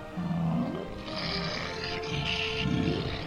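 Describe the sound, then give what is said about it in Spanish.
A dinosaur-style roar made with an electronic noise-maker: one sustained, rough, growling rumble with a hissy upper edge. It runs unbroken for about three seconds, swelling twice and ending louder. “hoy hasta voy a poder rugir como un dinosaurio, más o menos, tal que así.”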